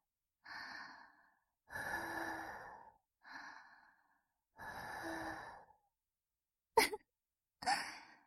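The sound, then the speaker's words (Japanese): Soft, breathy puffs of air blown close into a listener's ear: four drawn-out, hushed exhalations, then two short, sharper bursts of breath near the end, with no talking. “お耳ふうふうされて、どんな気分かな？”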